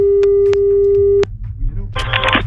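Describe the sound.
Telephone ringing on a call: a single steady ring tone lasting just over a second, broken by a few clicks. Voices and rustling follow once it stops.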